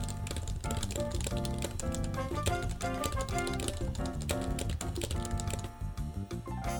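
Keyboard typing as a message is written: many quick, sharp key clicks in a steady, busy patter that runs throughout at moderate loudness, with no one speaking.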